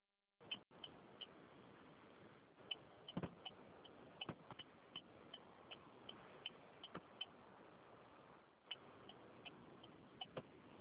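A car's turn signal ticks in a regular rhythm while the car is being driven during a call. Many faint, crisp clicks sit over a low, steady background hum.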